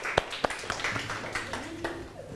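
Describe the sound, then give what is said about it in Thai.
A few scattered hand claps from students in a classroom lesson. Two sharp, distinct claps ring out early, followed by softer, looser clapping mixed with talking voices. “เข้าใจก็ปรบมือให้ตัวเองอีกครั้งครับลูก”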